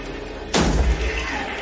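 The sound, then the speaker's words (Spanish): A door is kicked open in an apartment hallway: one sudden, heavy bang with a deep thud that cuts through steady background noise and then settles into a lingering rumble. “abre una puerta de una patada”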